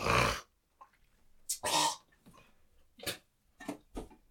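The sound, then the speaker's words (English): Harsh, throaty hacking as someone clears phlegm from the throat, a few rough bursts separated by quiet pauses, the first ones loudest and the later ones shorter. “I wasn't throwing up, I got phlegm.”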